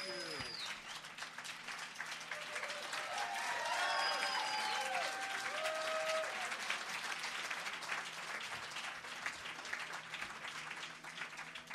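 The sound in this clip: Audience applause greets comedian Gilbert Gottfried as he walks on stage, with dense, steady clapping that swells in the middle and then eases slightly, mixed with crowd voices and cheers.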